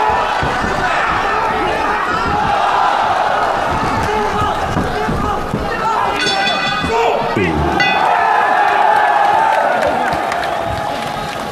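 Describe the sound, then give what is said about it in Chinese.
A live crowd applauds and cheers two fighters as the second round of a bout begins, making a loud, sustained roar of clapping and shouting with talking over it throughout. “第二回合的比赛一开始之后呢，现场的观众朋友们马上就以热烈的掌声欢呼给两位选手加油。”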